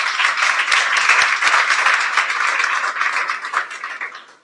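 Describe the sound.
Steady audience applause at a Persian-language gathering: dense, even clapping from many hands that carries throughout and thins slightly toward the end.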